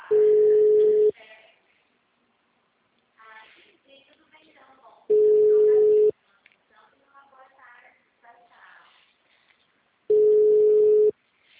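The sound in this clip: Telephone ringing tone during a call transfer: three steady one-second beeps at the same pitch, spaced about five seconds apart, with quiet talk in the gaps.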